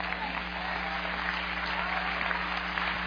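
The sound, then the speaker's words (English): A church audience claps during a sermon, producing a dense, steady patter of many hands over a sustained low tone that runs throughout. “If you understand what I say, just clap your hand.”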